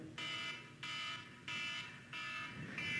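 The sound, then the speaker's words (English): A phone timer alarm going off, a repeating electronic beeping in steady pulses, fairly quiet and heard alone. “sorry, my phone, I need to get it. Uh-oh, timer. Anyway, an alarm.”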